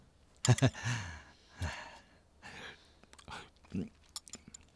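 Chewing food while eating breakfast: a few moist bites and mouth noises, mixed with breathy sighs and short exhales, fairly quiet and irregular.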